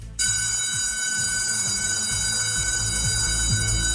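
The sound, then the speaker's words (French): An electric school bell rings on the first day of the new school year. It starts abruptly and keeps ringing, steady and unbroken, through the whole clip. “La sonnerie qui marque véritablement la fin des vacances et le retour en classe.”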